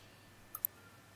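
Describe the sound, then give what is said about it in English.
Two quick, sharp clicks aimed at a comedian on stage, coming close together and standing out faintly against a quiet, steady background hiss. “Don't you fucking click at me like that, you sphincter-faced cockwomble.”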